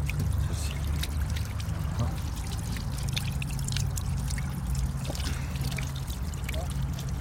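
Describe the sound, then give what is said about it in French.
Mountain water from Garni runs steadily from a street drinking fountain, a continuous splashing trickle over a low background rumble. “On en retrouve un peu dans toute la ville, même à l'extérieur aussi. Et l'eau, elle est bonne, elle vient de Garni, elle vient des montagnes.”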